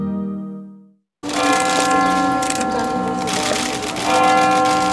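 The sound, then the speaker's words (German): Church bells of the Almudena cathedral in Madrid ring for Easter in a dense, continuous peal of overlapping strikes with sustained ringing overtones. The peal follows a brief fading tone and is heard alone. “Die Glocken der Kathedrale Almudena in Madrid läuten und rufen die Gläubigen dazu auf, den auferstandenen Christus zu feiern.”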